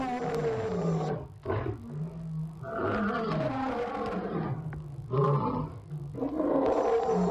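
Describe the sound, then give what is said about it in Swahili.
A lion roars in a series of deep, rumbling roars and shorter grunts, some long and some brief, separated by short pauses. “Kwa mtazamo wa juujuu huwezi kuona umuhimu wa simba, ila tazama watu wanaotoka Ulaya, Marekani na Australia kuja Afrika kumuona simba”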